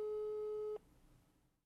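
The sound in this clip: A single telephone ringing tone while the caller waits for an answer: one steady, faint tone that lasts under a second and then cuts off.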